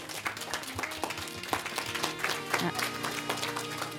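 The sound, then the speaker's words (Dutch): Students applauding at a school event about drugs and young people, dense uneven clapping with voices heard through it. “Geef ze een hart applaus. De leerlingen van het Hubertus en Berkhof, laat je horen.”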